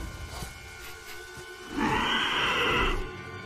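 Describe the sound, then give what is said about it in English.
Horse neighing on a ranch, a single loud, strained whinny lasting about a second, set against a low rumbling background. “Quaid books it back to his horse.”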